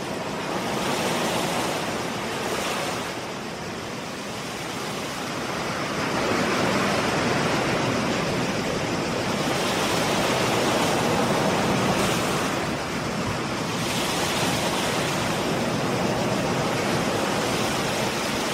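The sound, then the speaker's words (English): Waves wash along an island beach shoreline where hermit crabs live, giving a continuous broad rushing surf. Gentle swells rise and ebb in slow surges, with no voices. “And hear the sound of the shoreline where hermit crabs make their home.”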